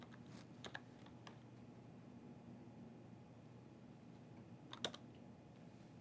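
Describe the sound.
A few sparse, faint keystrokes on a computer keyboard while a partition name is typed in, with a cluster early on and one more sharp click near the end, over steady low background hiss.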